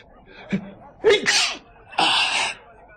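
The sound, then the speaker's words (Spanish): A man with a cold sneezing, an invisible man afraid the sneezes will give him away: a short catch of breath, then loud, voiced, explosive bursts, sharp and forceful, with no other talk. “Vaya, ya he cogido otro catarro. Y los estornudos me pueden delatar.”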